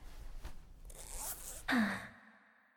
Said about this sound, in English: Okay, zip your pants back up.